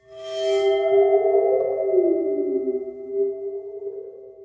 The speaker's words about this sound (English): It's a water phone. Water phone, yes. Which is like this metal thing that has some water at the bottom of it. That's why it kind of goes wobble, wobble, wobble.